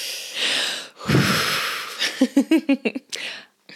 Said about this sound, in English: I'm taking a deep breath.